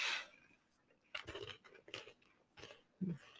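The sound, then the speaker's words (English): Crunching and chewing of dry baked cheese pretzel crackers: a few short, crisp bites and crunches at irregular intervals, fairly faint, with quiet pauses between them. “She's eating it on air, people.”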